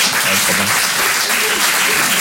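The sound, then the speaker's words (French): An audience at a stand-up comedy show applauds with dense, steady clapping that stays loud and even throughout, with no pauses. “Il y a des parents ici par applaudissement, ouais, un petit peu.”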